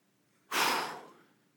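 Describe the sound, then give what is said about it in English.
A single deep breath during a sermon: a sudden, fairly loud rush of air that swells quickly, then fades gradually over about a second, heard alone with no talking. “And so, take a deep breath.”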